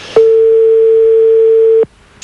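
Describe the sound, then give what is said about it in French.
A telephone ringback tone sounds on an unanswered late-night call: one loud, steady, unbroken tone lasting under two seconds, followed by quiet and a brief noise at the very end. “il faut laisser sonner longtemps, à 23h04, des fois ça dort dans les foyers, normal.”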